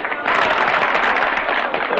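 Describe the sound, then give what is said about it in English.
Men clap at a union meeting, a dense, steady patter of applause that starts abruptly after a brief quiet moment and continues loudly to the end. “Some women jeer and some men clap.”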